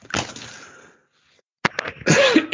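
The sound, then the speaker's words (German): Harsh coughing from someone who has swallowed the wrong way: a rough burst, a short silence, then several more forceful coughs. “Entschuldigung, habe mich verschluckt.”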